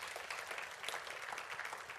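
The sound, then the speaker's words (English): A church audience gives a clap offering: fairly faint, dense, continuous applause of many hands with no pauses. “Come on, give him a good clap offering.”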